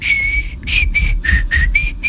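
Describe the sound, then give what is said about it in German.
A person whistles a short, cheerful tune of several clear, steady high notes, some held and some brief, heard alone without talk. “Ja, pfeifen ist ausbaufähig, macht nichts.”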